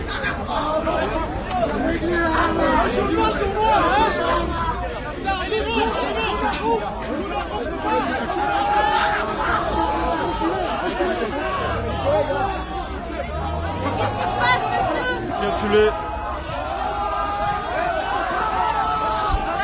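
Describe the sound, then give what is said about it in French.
Egyptian protesters, blocked in and surrounded by riot police, fill the air with a dense, continuous crowd hubbub of overlapping voices and shouts that stays loud and steady throughout, with no single voice standing out. “Ce qu'on entend, c'est le son des manifestants égyptiens qui ont été bloqués et encerclés par les CRS.”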